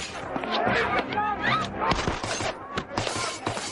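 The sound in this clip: Pistol gunshots fired at henchmen in an action film: several sharp, cracking shots in quick succession over a dense, busy mix of other action sounds.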